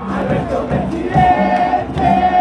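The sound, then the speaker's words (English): A vast crowd in Buenos Aires celebrates the election of president Alberto Fernández with loud cheering and chanting. Sustained shouted tones rise above the dense din of many voices. “It seems like light years since this vast crowd gathered in Buenos Aires, celebrating the election of a new president called Alberto Fernández.”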